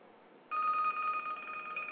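A telephone rings with a steady, high electronic tone that starts abruptly after a short stretch of near quiet and holds on for the rest of the moment.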